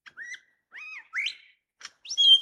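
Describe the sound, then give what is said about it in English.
A bird mimics the wailing, crying call of a black cockatoo, a big black parrot. It gives a few clear whistled phrases with upward-sweeping, bending notes, ending on a louder, higher call, separated by short silences. “You hear that wailing, crying sound there? That's a perfect imitation of the call of the black cockatoo.”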